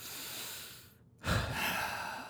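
A deep breath taken in: a soft airy rush, a brief near-silent pause, then a louder breathy surge that stays strong and fades slowly toward the end, with no talking.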